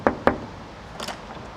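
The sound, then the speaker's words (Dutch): A door at an artist's studio in a former factory complex is opened, with two sharp, clunking knocks from the latch or handle in quick succession, then quiet. No one speaks. “Doe de deur zelf open.”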